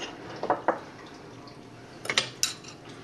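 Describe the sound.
A spoon clinks faintly against a bowl while sugar is stirred into a mixture, giving a few light metallic taps in two short clusters over a quiet background.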